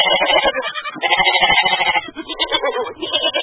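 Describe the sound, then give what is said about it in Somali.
Goats and sheep bleat at a crowded livestock market in Mogadishu's Dayniile district before Eid, a loud, continuous mass of overlapping bleats. “Halkani waa suuqa xoolaha ee degmada Dayniile.”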